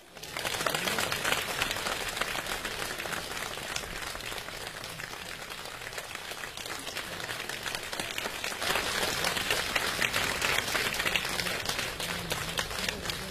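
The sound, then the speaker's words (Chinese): Applause from an audience at a live crosstalk comedy show, a steady, dense wash of clapping that continues throughout and swells slightly in the later part. “谢谢，谢谢大家的掌声”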